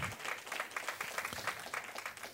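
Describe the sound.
Church audience applauding to welcome guests at a Sunday morning service, a dense, sustained wash of many hands clapping at a steady level throughout.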